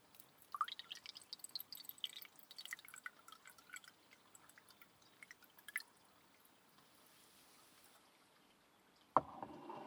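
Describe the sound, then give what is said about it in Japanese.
Blended tea poured into a cup, a faint, irregular trickle of small drips and splashes running through most of the pour. “ブレンド茶もそろそろいい頃合いでしょうから。こちらのカップに注いでおきましょう。”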